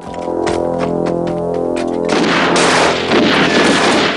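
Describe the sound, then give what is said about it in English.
Gunfire as two punks shoot at a man charging down an alley: a few sharp cracks over a droning, musical tone, then a loud, dense burst of rapid shots filling the second half. “Kersey charges down an alley towards two punks who fire at him.”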